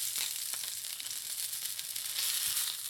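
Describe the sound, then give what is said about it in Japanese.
Floured scallops frying in a pan for a meunière, giving a steady, even sizzle throughout with no voices. “ムニエルの原則は具材を入れたらいじらないことです。動かしてしまうと小麦粉が剥がれてしまうことがありますよ。さらにひっくり返して30秒ほど焼いたら取り出しておきましょう。”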